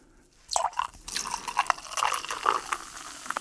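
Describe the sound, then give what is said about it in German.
Sparkling wine is poured into a hot pan to deglaze it: a sudden burst of sizzling and bubbling after a short quiet start, then crackling, spattering pops that continue to the end with no talk. “Und jetzt muss ich es, ich wollte schon sagen, ablöschen, auffüllen. Lösch es mal ab mit Sekt.”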